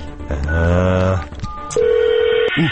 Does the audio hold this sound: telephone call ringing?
yes

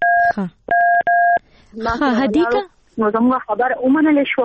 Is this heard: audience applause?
no

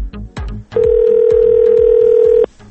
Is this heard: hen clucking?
no

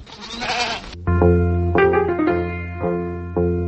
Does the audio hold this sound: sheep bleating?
yes

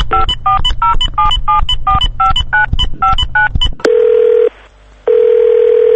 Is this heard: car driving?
no

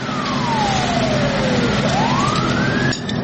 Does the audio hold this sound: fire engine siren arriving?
yes

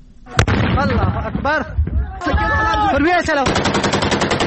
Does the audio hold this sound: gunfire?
yes

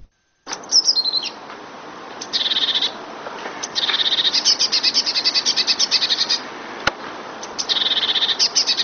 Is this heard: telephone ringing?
no

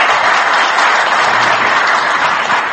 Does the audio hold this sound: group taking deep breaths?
no

